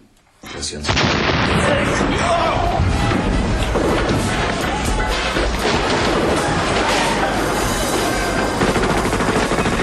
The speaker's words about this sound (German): Die Explosion riss ein riesiges Loch in das frisch gemauerte Stück Wand.